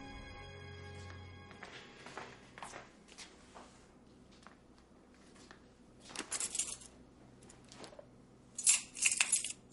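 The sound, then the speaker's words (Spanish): Keys and a handbag are picked up in a home's living room. A quiet stretch of faint shuffling leads to two clusters of bright metallic jingling from the keys. “Caleb entra en el salón de su casa y coge extrañado el bolso y las llaves de Kat”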